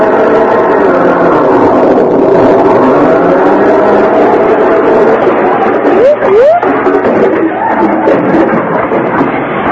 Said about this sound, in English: What are you two to think you're doing? Driving across my lawn with that car.